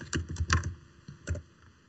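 Keys clatter on a computer keyboard as a terminal command, sudo apt update, is typed: a few quick, clicky keystrokes in an uneven rhythm, faint and with no other sound.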